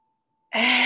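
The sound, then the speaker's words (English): A deep exhale during a guided breathing exercise: silence, then a sudden, loud, breathy rush of air that continues steadily to the end. “Exhale, drop it all out.”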